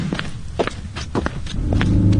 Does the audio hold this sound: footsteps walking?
yes